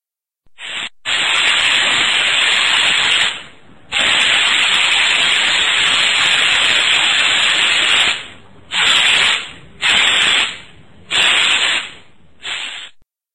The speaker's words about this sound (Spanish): 98 decibeles. Un rociador de pintura en spray.